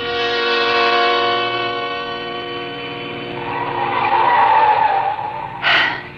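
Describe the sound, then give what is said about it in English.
A car speeds up a steep, winding mountain road with a loud, sustained droning engine whine rich in harmonics. The whine swells again toward the end with a short, sharper burst. “We were driving too fast, but I knew that if I slowed down at all, I would begin to tremble.”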